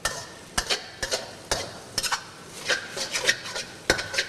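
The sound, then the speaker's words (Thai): A spatula slowly stirs noodles in a pan during stir-frying. It makes repeated scraping and rubbing strokes in a slow, uneven rhythm over a soft sizzle. “เทคนิคง่ายๆไม่ให้เส้นขาดก็คือจับตะหลิวเนี่ยครับลงแล้วค่อยๆคนอย่างนี้นะฮะเพื่อที่จะไม่ให้เส้นติดกัน”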